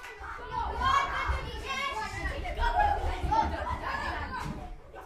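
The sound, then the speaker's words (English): Children playing at school recess: a steady, lively wash of many young voices chattering, calling and laughing together, with no single voice standing out and the din holding fairly even throughout. “This is the sound of children playing at recess.”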